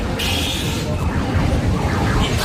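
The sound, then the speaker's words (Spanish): Funfair ambience, a dense, noisy wash of crowd bustle and voices, with a high steady tone sounding near the start. “¿Así suena una feria?”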